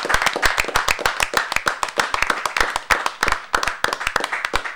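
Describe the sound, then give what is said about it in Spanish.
Audience clapping in tribute to underground bands, heard as many sharp, distinct handclaps in a brisk, uneven rhythm, fairly loud and with no talk. “Quiero hacer un aplauso bien fuerte por todas las bandas under”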